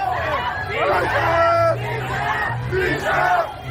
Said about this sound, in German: Tausende Menschen sind unterwegs. Sie strömen zur Trauerfeier für Ali Khamenei. Der ehemalige Staatschef des Irans war einige Monate zuvor bei einem israelischen Luftangriff ums Leben gekommen. Plötzlich wird die Menge unruhig.